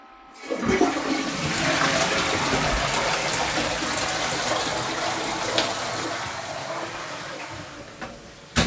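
A toilet flushing: a sudden loud rush of water that holds steady for several seconds, then slowly thins out as the bowl drains.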